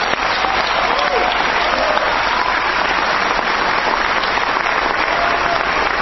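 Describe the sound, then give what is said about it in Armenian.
Long, loud audience applause after a film screening that honours the film director Artavazd Peleshian, a dense, continuous roar of clapping that holds steady without a pause. “Ֆիլմի ավարտին հանդիսատեսն անընդ մեջ երկար ծափահարություններով կրկին ողջունեց մեծանուն կինոռեժիսորին Արտավազդ Փելեշյանին։”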